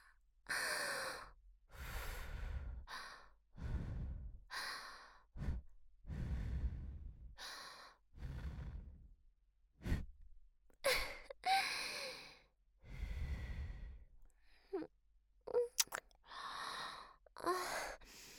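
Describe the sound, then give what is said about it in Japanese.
Soft breaths are blown close into the ear in a long series of airy exhales separated by brief pauses. Some puffs are sharper than others, all quiet and intimate, with no speech. “もしかしてお耳に息吹きかけられるのくすぐったい？じゃあもっと息かけちゃおっと。”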